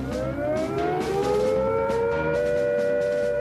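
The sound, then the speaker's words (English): Civil defence siren sounding a nuclear attack warning: a loud, sustained wail of layered tones that edges slightly upward in pitch early on, then holds steady, with no voices. “If we are attacked by nuclear weapons, these are the warning sounds you must recognize.”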